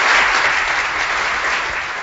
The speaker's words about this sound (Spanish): Ahí está, que suenan esos aplausos, bien, bien.